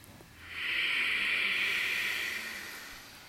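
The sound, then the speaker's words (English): A slow nasal breath drawn with lips sealed during a yoga practice: one long, soft, airy hiss that swells in, holds steady and gradually fades out. “Keep your lips sealed. Fuel your fire through this fresh breath in and out only through your nose.”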